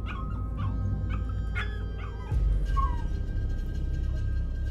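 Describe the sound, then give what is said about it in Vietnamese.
Dogs whimper and yelp along a village road, tails tucked. A run of short, high yelps and thin whines is followed by a drawn-out whimper over a low rumbling background. “Thậm chí những con chó ở hai bên đường như cảm nhận một sự gì đó, chúng nó cụp đuôi cứ ăng ẳng lên.”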